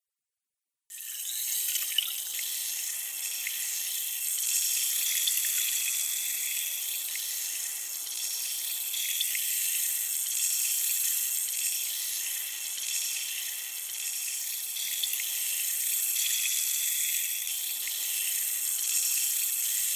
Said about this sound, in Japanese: 反対のお耳も洗浄していきますね。